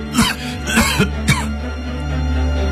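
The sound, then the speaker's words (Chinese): A sick old man coughs four times in quick succession, harsh rasping bursts with a throat-clearing quality, then a quieter steady background. “刘钦说着呢，他还咳嗽起来了。”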